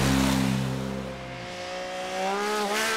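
Loud car engines revving as vehicles drive fast through a village, the deep engine note dropping in pitch midway and then climbing again as the engine is pushed, with no talk over it.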